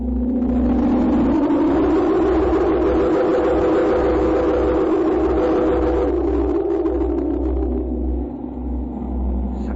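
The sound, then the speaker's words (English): A truck engine runs with a loud, steady, low rumble and a mid-pitched drone that holds nearly constant throughout, easing slightly near the end. “Stop the truck.”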